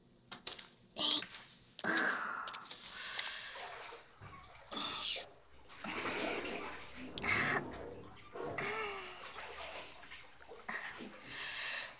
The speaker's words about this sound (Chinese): 好了，我们进浴缸吧。